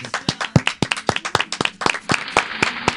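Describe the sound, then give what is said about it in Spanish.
Applause from a small crowd: loud, irregular hand claps, sharp and crisp, quickening into a steady patter of clapping over about three seconds, with no voices. “Sí, la verdad que un aplauso.”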